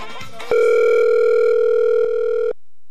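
After a dropped call, a telephone dial tone sounds loud and steady. It starts abruptly after a brief burst of noise, holds unbroken for about two seconds, then cuts off.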